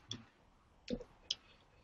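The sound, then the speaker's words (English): Faint, sharp computer mouse clicks as the edit button is pressed on a web page, a few separate dry ticks spaced unevenly across a quiet background with no talking. “I'm going to click edit.”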